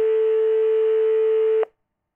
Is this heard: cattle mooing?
no